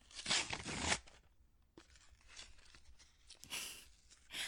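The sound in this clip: Paper tearing and crinkling as a gift package holding a PS5 is unwrapped: a loud rip, then softer rustling and further tearing bursts, fairly faint overall.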